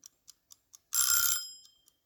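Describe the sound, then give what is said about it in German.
An alarm clock ticks four times, then rings in a short, loud, bright burst of about half a second that quickly fades, followed by a couple of faint ticks. “Aber wenn der Wecker klingelt,”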